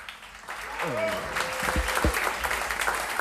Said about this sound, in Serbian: molim vas za jedan aplauz, pripremite dlanove.